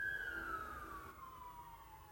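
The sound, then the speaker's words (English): Emergency siren passing by: a single wailing tone slides steadily downward in pitch over a rumbling low background and stays fairly faint throughout. “I just want that siren to go past.”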